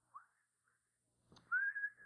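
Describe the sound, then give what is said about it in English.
A person whistles: a short bright chirp, a tiny faint blip, then a louder, steady, sustained whistled tone for about half a second near the end, with near silence between. “you whistle or, you know, you do something to indicate you're not afraid”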